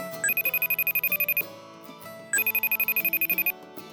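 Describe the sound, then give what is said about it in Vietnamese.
A telephone rings as a call is placed, two bursts of rapid, high electronic trilling separated by a short pause. “Bây giờ chúng ta sẽ cùng gọi điện nha.”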